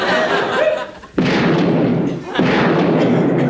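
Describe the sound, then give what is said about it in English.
Cartoon gunshots ring out as two loud, sudden blasts, each leaving a long, noisy roar that stays steady after it. “Well, at least he didn't shoot himself in the foot.”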